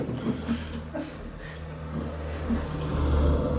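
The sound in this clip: A car driving off: a steady low engine rumble with some revving that grows gradually louder toward the end, with no talk over it.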